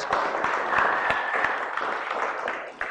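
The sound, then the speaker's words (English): An audience applauds in a round of fairly soft, continuous clapping. A few sharper claps stand out, and the clapping thins slightly toward the end. “Why don't we give them a round of applause”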